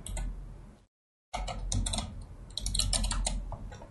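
Typing on a computer keyboard: a busy clatter of key presses, cut by a short silent gap, then resumes and carries on steadily to the end.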